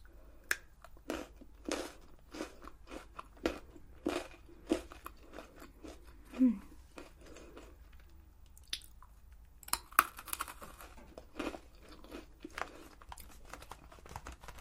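Chocolate-coated Pocky biscuit sticks are crunched and chewed in crisp, close bites and squishy chews in an irregular rhythm, quiet, with no talking.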